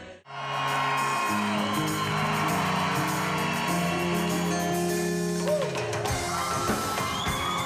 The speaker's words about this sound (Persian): لحظه وعده شده پس از انتظار طولانی فرا می رسد و تماشاگران از هنرمند محبوبشان در روی استیج استقبال می کنند.